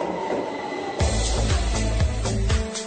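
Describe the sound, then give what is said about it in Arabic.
A metro train sets off with a loud rumble of the rails and the rhythmic clatter of its wheels. Thin metallic squeals rise above the steady, heavy rolling noise, and no voices are heard. “معجوق معجوق المترو تبعنا اليوم، مش مصدق يوصل دغري قبل ما نطلع على الهواء. انطلق المترو يا جماعة”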